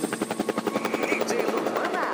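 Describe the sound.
Helicopter rotor chop: rapid, evenly spaced thudding pulses that keep a steady rhythm for about two seconds under a faint humming tone.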